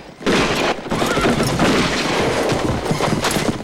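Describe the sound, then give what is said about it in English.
A gang fires gunshots into the air while riding through a town, a loud, dense volley of blasts and booms that runs almost continuously with rumbling noise beneath. “The gang fires shots into the air.”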